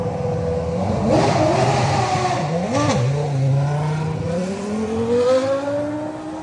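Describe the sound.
A Toro Rosso V10 racing car engine revving at an Assen track day. The loud, raw engine note swings up and down in pitch, then climbs steadily toward the end, with no talk.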